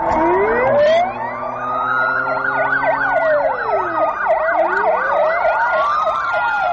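A police car siren wails on patrol through a city under heavy summit security. It sounds loud and unbroken, with slow rising and falling sweeps at the start and end and a rapid up-and-down yelp in the middle.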